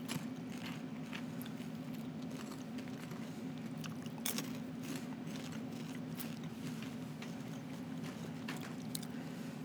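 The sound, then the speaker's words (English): Biting and chewing caramel corn: a few sharp crunches stand out over a steady low hum and constant background noise. “I'm just gonna taste it up. Putting my first bite into my mouth.”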